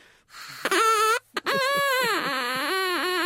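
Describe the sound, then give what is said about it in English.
A carrot turned into a reed instrument gives a loud, buzzy hoot. A short rising squeal comes first, then a long, sustained tone that sinks lower and wobbles as it continues. “I've got a carrot here I made earlier. Let's see if that gives a different noise.”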